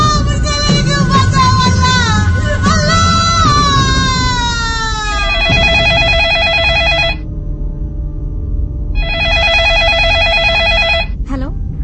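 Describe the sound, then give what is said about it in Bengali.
A telephone rings in a Bengali-language audio drama: two long, loud electronic ringing bursts separated by a pause, preceded by a busier stretch of sliding tones. “এমন সময় আবার বেজে ওঠে phone.”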